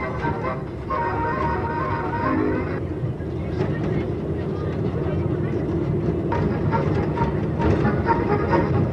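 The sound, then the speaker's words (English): Steady, even rumble of the Goodyear People Mover, a Disneyland ride vehicle rolling on rubber tires, a continuous low mechanical drone with a faint higher whir that holds level throughout. “Goodyear welcomes you aboard the People Mover, an exciting new concept in transportation, the first system of its kind anywhere in the world.”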